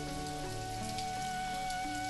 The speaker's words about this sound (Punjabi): ਹੋਏ ਹੋਏ, ਹੁਣ ਮੈਂ ਘਰ ਕਿਵੇਂ ਜਾਵਾਂਗਾ, ਇਹ ਬਾਰਿਸ਼ ਫਿਰ ਸ਼ੁਰੂ ਹੋ ਗਈ ਹੈ। ਮੈਂ ਤਾਂ ਪੂਰੀ ਤਰ੍ਹਾਂ ਭੇਜ ਚੁੱਕਿਆ।